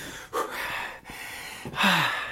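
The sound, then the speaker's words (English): Heavy breathing from someone winded after exertion: a few loud, gasping breaths in and out with short pauses between them. “I'm out of breath already.”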